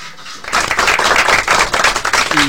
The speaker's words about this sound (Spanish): un aplauso grande acá a Eduviges y a Rolando.